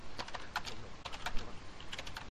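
Rapid, irregular clatter of keystrokes on a computer keyboard, steady and fairly loud with no talking.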